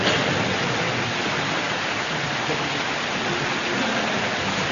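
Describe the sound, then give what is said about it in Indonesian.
Rain falling as a dense, continuous, even hiss of steady intensity throughout, with no distinct drops standing out and no voices. “Ini hujan, itu mau pulang kah?”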